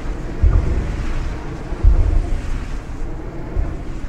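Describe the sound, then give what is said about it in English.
Wind turbine at a wastewater treatment plant in Falmouth, Massachusetts: a low, broad rumbling hiss with a few rhythmic whooshing surges, alone and steady in level. “You're hearing Falmouth Wind 1, which is at the wastewater treatment plant in Falmouth, Mass. These wind turbines in Falmouth have been and continue to be quite controversial”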